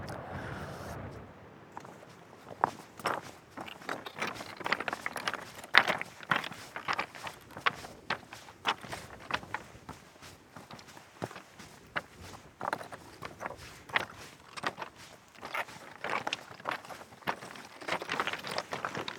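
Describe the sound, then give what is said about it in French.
Footsteps of hikers climbing a mountain trail toward glacial lakes below a rocky escarpment: many irregular, crunching steps at a steady walking pace, fairly faint and continuing throughout. “Alors là, on vient de monter vers les lacs de Fontargent.”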